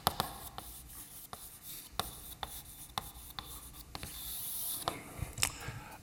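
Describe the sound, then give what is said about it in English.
Handwriting during a math talk as definitions of a super Lie algebra are written out: faint scratchy strokes and sharp little taps in an irregular rhythm, with a longer scraping stretch near the end and no voices. “I guess most people know this, but let me just write it down.”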